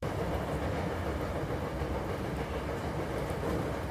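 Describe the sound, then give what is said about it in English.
A train rides the rails in Osaka with a steady, dense rumble and a continuous low mechanical roar that holds an even loudness throughout. “I'm riding the rails here in Osaka”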